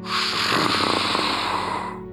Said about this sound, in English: sound as if something large is exhaling